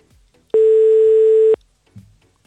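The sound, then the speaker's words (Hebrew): A single loud, steady telephone tone holds for about one second while a call is being dialed, then drops away to near-silence. “לא מצליחים לקבל מענה, ננסה למספר נוסף”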